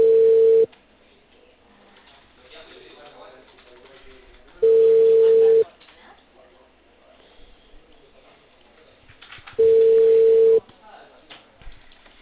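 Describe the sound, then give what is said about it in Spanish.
Ringback tone of an outgoing phone call that rings out unanswered: three steady, mid-pitched tones, each about a second long and roughly five seconds apart, over faint line noise. “Ya, ahí te estoy llamando, espérame un ratito.”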